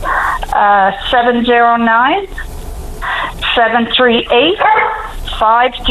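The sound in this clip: A dog barking in several short, yelping bursts mixed in with a person talking; the sound is thin and narrow, with the barks and the voice overlapping throughout.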